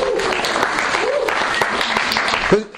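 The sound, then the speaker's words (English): Audience applause as a speaker is invited up onto a stage, a dense, steady patter of clapping for almost three seconds with a voice speaking over it. “At this point, I'm going to invite Denise to come up onto the stage to rapturous applause.”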